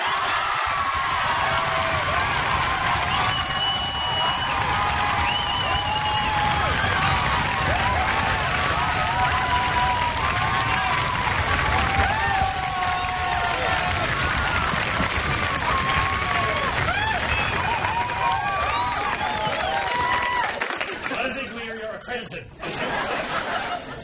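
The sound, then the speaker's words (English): Audience reacting with applause mixed with laughter, cheers and a few whoops, a continuous crowd wash running under talk for most of the stretch before thinning out near the end. “Check the reaction from the audience.”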